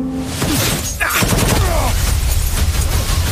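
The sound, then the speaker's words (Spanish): Gunshots fired at a person ring out in loud, rapid volleys, shots and booming blasts packed densely together and continuing without a break. “¿Por qué le disparan a usted?”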